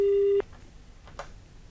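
A telephone signals an incoming call with a single steady electronic tone that cuts off abruptly, leaving low background noise.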